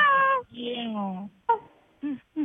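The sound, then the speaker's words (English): A human voice imitates a cat meowing on a group phone call. It makes a couple of whiny, drawn-out mews with gliding, falling pitch, followed by a few short vocal bursts. “Meow. Meow.”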